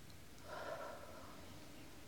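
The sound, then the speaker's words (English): A single soft, deep breath in an anesthesiologist roleplay, a quiet airy swell that rises and fades within about half a second over a faint steady background. “Okay, relax. Alright. Take a deep breath. Relax.”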